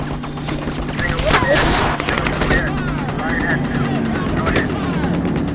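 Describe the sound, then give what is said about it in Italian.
Enemy gunfire from snipers on a coast: dense, continuous crackling shots overlap in a loud, sustained barrage with no clear pauses, and voices are mixed into the clamor. “All'improvviso siamo sotto il fuoco nemico. I cecchini sono sulla costa. Tutti aprono il fuoco”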